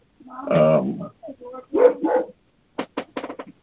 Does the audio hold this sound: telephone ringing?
no